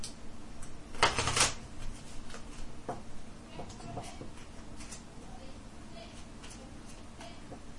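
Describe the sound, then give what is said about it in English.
Shuffling a deck of playing cards that holds two jokers, at a tabletop game session: a short, crisp riffle burst near the start, then scattered light card taps and clicks at a low level. “Do I have to shuffle twice? Twice, yeah. Yeah. Surely one good shuffle will do.”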